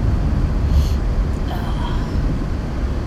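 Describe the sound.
A car driving along a road through trees, heard as a loud, unbroken low rumble of engine and road noise with a constant hiss over it.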